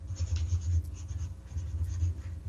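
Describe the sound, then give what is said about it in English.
Pen scratching across paper as a name is written down by hand, a soft, continuous scratchy rasp with gentle swells in intensity, quiet and heard alone. “Albert Kelly. I'm going to write that down.”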